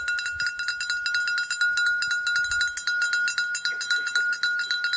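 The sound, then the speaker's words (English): A handbell rung by a Santa Claus bell-ringer in a red suit outside a Walmart at Christmas time. It jingles in a rapid, steady, bright rhythm that continues unbroken throughout. “And when you hear that sound ringing, the first thing you do is you start looking where it's coming from. And sure enough, there's a man dressed in a red suit with a white beard.”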